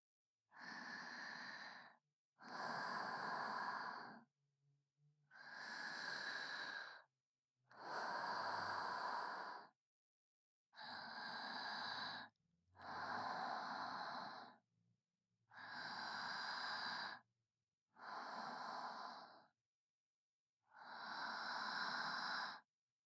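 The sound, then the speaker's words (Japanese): Deep, slow breaths during a relaxation massage: nine long, airy breaths, each lasting a second or two, separated by short silences and evenly paced at a soft level. “じゃあもう一度 深呼吸。”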